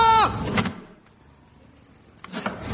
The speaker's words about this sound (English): open the window